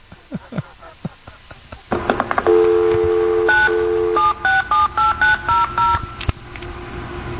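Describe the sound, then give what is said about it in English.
An old telephone being dialled: a string of sharp, evenly spaced clicks, then a steady low tone and a quick series of short, loud touch-tone beeps at varying pitches, with no voices. “that's the sound of a phone back in the old days, back in the last century.”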